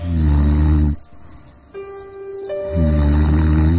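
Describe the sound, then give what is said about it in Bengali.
Snoring from a person asleep at night: two loud, low, rasping snores with a quieter, airy breath between them. No talking is heard. “আমি তখন নাক ডাকিয়ে ঘুমোচ্ছি।”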